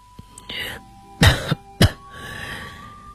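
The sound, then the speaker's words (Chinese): A person coughs loudly, a few harsh, low bursts close together, after some soft breathy sounds. The coughs are heard alone, with no other voices. “德里特里便咳嗽了两声，继续说下去。”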